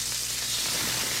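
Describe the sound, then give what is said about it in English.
Smash burgers sizzle on a grill with a brief, steady hissing crackle of frying fat, even and unbroken throughout. “Fresh, juicy, award-winning smash burgers are sizzling right now”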